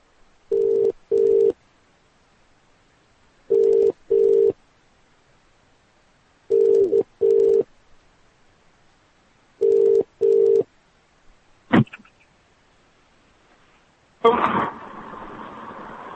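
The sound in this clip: Telephone ringback tone during a prank phone call being placed back: four evenly spaced double-pulse rings, each a steady mid-pitched buzz, then a sharp click and a burst of line noise as the call connects.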